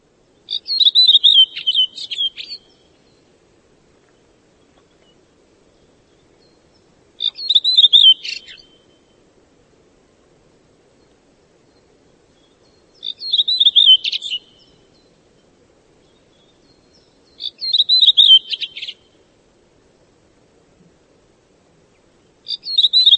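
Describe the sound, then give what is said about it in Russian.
A redwing thrush sings in short, high, twittering phrases, five bursts separated by long silent gaps, the last one cut off at the end, over a faint low background hum. “Дрозд белобровик.”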